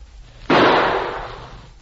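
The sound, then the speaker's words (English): A single gunshot, a sudden sharp bang that trails off into a fading noisy tail. No one speaks. “Well, here goes our last shot.”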